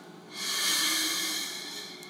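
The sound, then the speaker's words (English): A single deep breath is drawn during a quiet devotional moment, a soft, airy hiss that swells quickly and then slowly fades, heard alone without talk. “Breathe to focus our minds on Jesus.”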